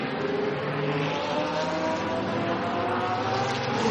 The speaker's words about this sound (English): Excuse the noise in the background. It's noise of car doing pit stops